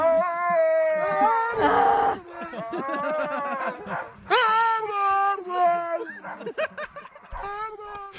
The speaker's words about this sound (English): The dog choir always adds a nice touch. The Huskies. Huskies.